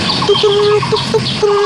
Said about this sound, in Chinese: 这个是黑维尼啄木鸟的叫声，多响亮，它就一只，但是它叫的声音比别的鸟要穿透力更强更远。